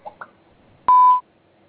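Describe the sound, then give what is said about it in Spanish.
A voicemail system's recording tone: one steady electronic beep lasting about a third of a second, clear and fairly loud, preceded by two faint soft blips. “Favor de grabar su mensaje después del tono.”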